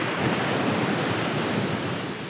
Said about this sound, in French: attention, une vague un peu plus haute